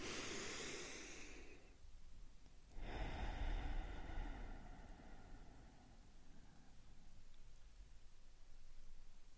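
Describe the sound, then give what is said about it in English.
A slow, deep breath is drawn in and let out. It is a soft, airy hiss that swells and fades, fairly quiet and with no talking. “let's take a deep breath in and a deep breath out.”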